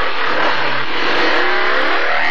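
Motorcycle engine revving hard, a loud, dense, continuous roar that holds steady without pauses through the whole stretch.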